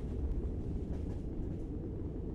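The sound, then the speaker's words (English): Low, steady rumble of a moving train, heard as a faint, continuous roar of wheels and carriage noise without distinct clacks. “Sometimes when we're going through real dark, desolate places in the woods, slow the train down”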